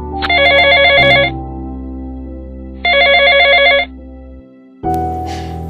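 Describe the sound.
A telephone rings as a call is placed: two trilling electronic rings, each about a second long and separated by a pause, over a steady low tone, followed by a different sustained tone.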